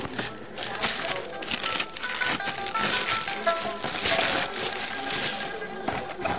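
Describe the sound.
Wrapping crinkles and rustles as a parcel containing a mobile phone is unwrapped, making a dense, continuous crackling at a steady level throughout.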